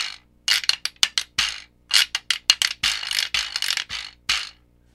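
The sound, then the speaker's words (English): Rattling and scraping of a jawbone percussion instrument: the teeth clatter loosely in their sockets, and a broken drumstick is scraped up and down the molars. Many dry, buzzy bursts come in an uneven rhythm, with no talk. “So the kind of boingy rattle sound is the teeth rattling in their sockets. And then I have a drumstick, broken drumstick, that I scrape up and down the molars to give that other sound.”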